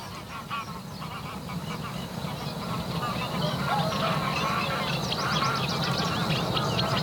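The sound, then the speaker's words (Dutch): Greylag geese flying over, honking: many nasal honks and calls in a loose, overlapping chorus above a steady low background, growing slightly louder toward the end. “Vliegen hier wat ganzen over? Ja. Grauwe ganzen? Ja, die zijn hier overal.”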